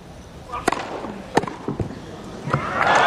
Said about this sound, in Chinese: 好发球啊，123英里的时速。